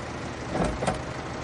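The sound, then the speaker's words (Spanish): Tractor approaching across open ground by a warehouse, a faint, steady low engine rumble that swells slightly midway, with no voices. “Un tractor se acerca al descampado del almacén, donde Barr le espera.”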